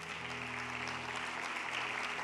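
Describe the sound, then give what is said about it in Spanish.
A church audience applauds during a sermon, a steady, even wash of clapping that holds at a constant level throughout, with a low electrical hum underneath. “Dale un aplauso a Él si lo crees.”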